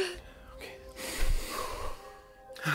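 One big, deep breath is drawn in as a long, loud, rushing inhale, with softer breathy sounds before and after it.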